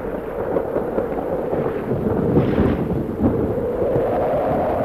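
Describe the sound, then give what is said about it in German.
A thunderstorm with heavy hail gives a loud, continuous low rumble of thunder and pounding rain, swelling slightly in the middle and holding steady without pause. “Der Sturm nimmt überhand. Gehabt euch wohl! Es hagelt schwer!”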